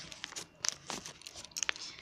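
Crinkly tearing and rustling as food wrapped in banana leaves is unwrapped, a series of short, quiet crackling bursts with a few sharper crunchy peaks.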